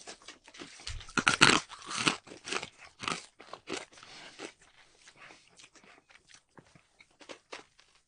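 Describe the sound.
Loud crunching of freeze-dried Hitchis being bitten and chewed. Many sharp, brittle crunches come in quick bursts, strongest at the start, then thin out into quieter, sparser chews.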